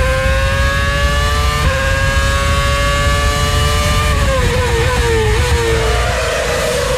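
Formula 1 race cars from the 2010 Turkish Grand Prix play on a TV as a loud, sustained high engine whine over a dense rumble. The pitch holds steady for several seconds, then drops and settles lower toward the end.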